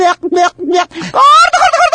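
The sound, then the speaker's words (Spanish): A human voice imitates a turkey gobble with loud, rapid, warbling throaty bursts that run together into a wavering, higher-pitched gobble. “Para comunicarte y haces voces. La rana Susana, el pavo Cipriano,”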